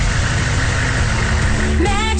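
A truck engine runs at idle with a loud, steady, low rumble that stays even throughout, with no voices over it.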